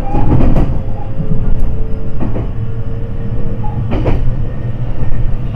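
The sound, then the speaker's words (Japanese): Steady low rumble of a JR West local commuter train running near Nagahama Station toward Sakata. It holds at a constant loudness, with a few faint clunks and rattles from the carriage along the way. “普通電車の長浜駅です。次は坂田です。”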